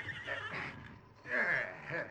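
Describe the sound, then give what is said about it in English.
Horses neighing in a barn: two whinnying calls with strong harmonics, the second louder and longer than the first, heard with no talk over them. “Soon the horses were made comfortable in the barn.”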